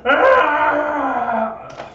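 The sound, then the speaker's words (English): A voice imitates a creature's scream during a tabletop role-playing game: one sustained, harsh wailing cry lasting nearly two seconds, its pitch sliding gradually downward before it cuts off. “After he swings at you and misses, you just come forward. He screams,”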